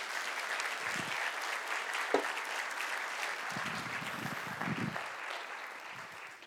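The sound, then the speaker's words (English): An audience applauds as a guest is welcomed onto the stage. The clapping is steady and fairly soft, holds throughout, and eases slightly toward the end. “Come on, give it up for my wife, Ashley.”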